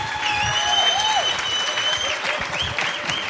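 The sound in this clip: An audience stands and applauds as a speaker is welcomed onto the stage. The clapping is dense and continuous at an even level, with sustained tones running over it.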